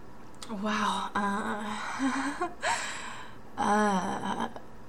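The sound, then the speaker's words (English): Heavy breathing from a person catching their breath, with several voiced gasps and sighing exhalations that rise and fall in loudness, the breaths pitched and strained. “I need to catch my breath.”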